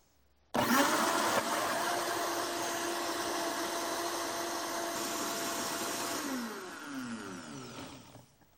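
A blender mixing cashew nuts with water starts abruptly into a loud, steady motor whir. It holds for several seconds, then winds down with falling pitch as it stops.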